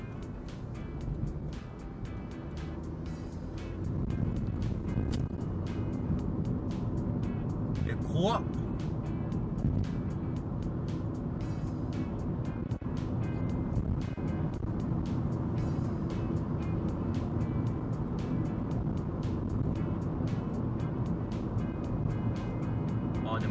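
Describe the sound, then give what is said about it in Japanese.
Many cars driving past on a busy road, a dense and steady rumble of tyres and engines that holds an even, loud roar for the whole stretch. “うわ、めっちゃ車いる、 怖っ。”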